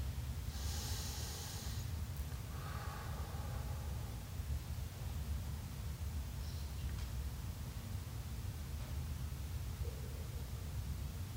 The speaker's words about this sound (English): Taking a couple deep breaths.